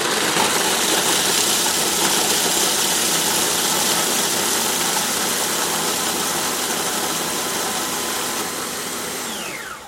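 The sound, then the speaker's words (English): Food processor running on high, grinding graham crackers with sugar: a loud, steady, harsh whirring roar that holds for ten seconds and eases slightly at the end. “I'm going to process this now, the sugar and the graham crackers together. I'm going to put it on high, and it should only take a minute, but it's going to be loud.”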